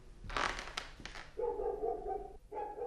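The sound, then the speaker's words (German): Dog barking: a few sharp, loud barks followed by longer, drawn-out tonal cries that sound like whining or howling. “der Mino bellt schon wieder. Nee, lass ihn bellen.”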